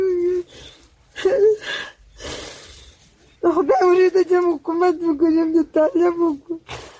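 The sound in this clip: A 42-year-old woman sobs and wails. Her two sons were killed on the same day in fighting between Afghan soldiers and the Taliban in Uruzgan. Gasping, breathy sobs lead into a long stretch of loud, quavering, tonal cries.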